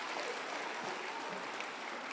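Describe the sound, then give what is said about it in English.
Congregation clapping hands during a church worship service: a dense, steady patter of many hands, even in loudness across the whole stretch with no breaks or voices standing out. “Clap your hands to the Lord.”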